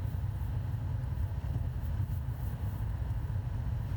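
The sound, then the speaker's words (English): Inside a car driving on a parkway in murky weather, a faint, steady low road rumble with soft wind noise and no talk. “Getting up exit 137 here on the parkway. Riding in the murk. This is the first long trip I've had in this car.”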